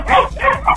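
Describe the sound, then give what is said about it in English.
Dogs barking in three quick, high-pitched, yappy barks packed into under a second, loud and close together. “My dogs are barking.”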